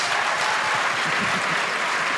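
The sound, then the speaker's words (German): Audience applause at a German-language stage event, a dense, steady clapping that stays loud and even from start to finish. “Applaus für Annette Hess.”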